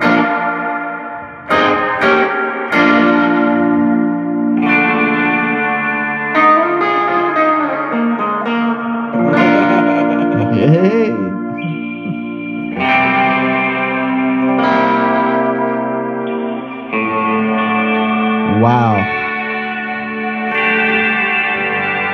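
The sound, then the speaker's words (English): Electric guitar played through a Fender Reverb-based pedal on its modulation setting with the effect level set high: sustained notes and chords with a wobbling, chorus-like pitch sway and echoing tails, played alone. “That's their modulation. That's their modulation. Yeah, which I probably got the effect level too high.”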